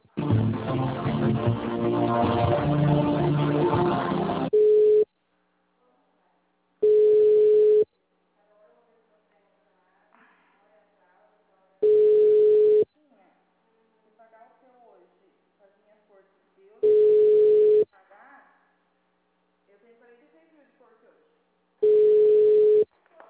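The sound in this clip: Telephone call transfer tones on a city hall line: hold music ends in a short beep, then four steady, mid-pitched tones about a second long follow roughly five seconds apart, with faint murmurs in the gaps.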